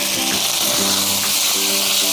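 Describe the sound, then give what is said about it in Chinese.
Minced garlic sizzles in a hot wok with a dense, steady hiss of frying that runs unbroken and fairly loud through the whole clip. “倒入蒜末，爆香。”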